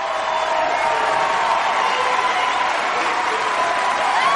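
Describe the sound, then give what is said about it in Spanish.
Crowd cheering and applauding in a science-fiction action film as a young woman joins the daring Dauntless faction; a steady, dense roar of many voices and clapping that stays even in loudness from start to finish. “Ella va hacia los asientos de osadía que aplauden y le dejan sitio en primera fila.”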